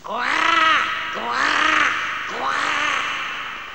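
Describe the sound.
A raven gives three loud, harsh, drawn-out caws. Each is hoarse and arches up and then down in pitch, with short gaps between the calls.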